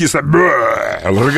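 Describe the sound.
A voice imitates a belch of sour cabbage with a single croaking, low-pitched burp that is drawn out for about a second, loud and throaty, ending in a brief rough tail.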